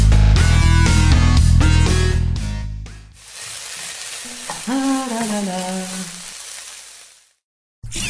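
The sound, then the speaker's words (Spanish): Food sizzling and frying on an induction hob, a loud hissing crackle that follows a short burst of music and fades before a brief silence near the end. “Cocinar con inducción es más eficiente. Usa esta tecnología y reducí tu consumo eléctrico por un hogar más sostenible.”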